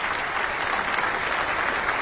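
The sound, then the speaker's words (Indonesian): Audience applause for a team at a school quiz competition, an even, continuous patter of many hands clapping at a steady level throughout. “Tepuk tangan Bapak Ibu untuk regu D.”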